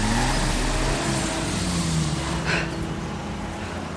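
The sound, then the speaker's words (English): A jeep driven by a guard arrives, its engine a loud, steady low rumble that eases slightly toward the end. “General Ruiz arrives in a jeep driven by a guard.”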